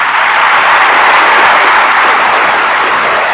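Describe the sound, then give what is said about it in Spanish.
Loud, dense applause from a large audience at a faith and science forum, an even, continuous roar of clapping that lasts the full clip without a break. “Vamos a dar un aplauso a Jesucristo que es Rey.”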